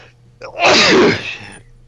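A single loud human sneeze, a short sharp intake followed by a forceful, breathy burst that fades quickly, heard alone without talking.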